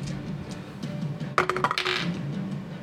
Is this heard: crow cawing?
no

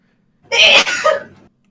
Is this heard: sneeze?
yes

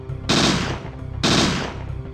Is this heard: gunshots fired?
yes

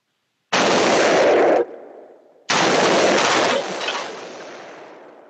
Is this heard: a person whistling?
no

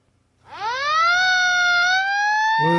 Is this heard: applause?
no

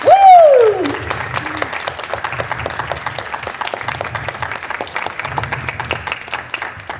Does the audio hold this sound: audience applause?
yes

